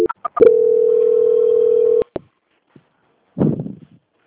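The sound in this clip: A telephone call-transfer tone: a few short beeps, then one loud, steady single-pitch tone held for about a second and a half, ending in a click. A brief noisy burst follows after a pause.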